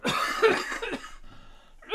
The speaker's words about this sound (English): Ah, my God, I'm dying here. Excuse me, man. I'm sorry. Dude, it's like so gross. I'm sitting here like wheezing on this fucking mic, man.